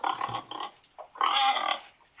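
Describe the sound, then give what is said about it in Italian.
Pigs grunt and squeal in two main bursts, with a couple of short grunts between them, the second burst longer and more sustained, standing out clearly against near silence. “I maiali.”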